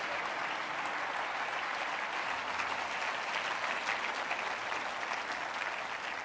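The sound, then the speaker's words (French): Congregation applauding at the close of a church sermon: sustained, dense clapping from many hands at a steady, fairly loud level for several seconds, without clear speech over it. “J'aimerais qu'on prenne un instant ce matin alors que j'arrive à la fin du message pour simplement acclamer tous les miracles qui pourraient prendre place dans la génération Némi.”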